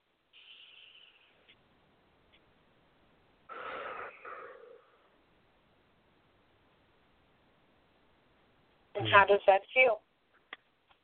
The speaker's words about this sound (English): Take a nice deep breath.